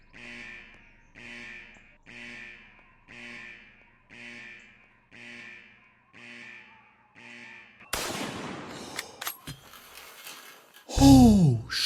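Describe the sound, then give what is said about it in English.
Gunfire in a border-checkpoint video game: a sudden loud burst followed by a few sharp cracks, then a heavy blast with a falling tone. It comes after a run of eight soft, evenly spaced pulses. “I'm gonna shoot him. I'm shooting him.”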